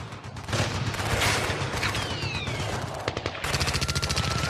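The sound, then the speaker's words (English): Rapid gunfire sound effect used as an intro, with many dense, overlapping shots in fast bursts, a brief stuttering gap near the end and no voices. “What a great intro. You know, there's no take there. It's just bullet noises.”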